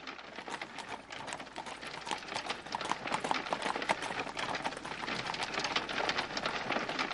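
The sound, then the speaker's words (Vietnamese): Hooves of four horse-drawn carriages approaching, a dense continuous patter of many clattering hoofbeats that grows a little louder partway through. “nha dịch áp tải 4 chiếc xe ngựa hướng bên này mà chạy tới”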